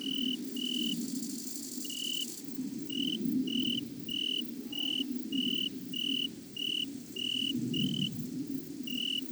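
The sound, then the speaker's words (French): An Italian cricket chirps as it wakes, giving a long run of short, evenly spaced high chirps that are steady and clear over a continuous low rumble. “et un grillon d'Italie qui s'éveille, et l'avion suivant, bien sûr.”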